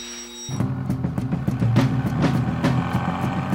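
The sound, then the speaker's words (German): A car engine runs while driving, starting abruptly after a brief quieter moment and settling into a low, steady rumbling drone with a faint pulsing rhythm. “Er wechselt die Spur. Seine Finger würden jetzt auf das Lenkrad trommeln. Verträumt in den Rhythmus der Zylinder.”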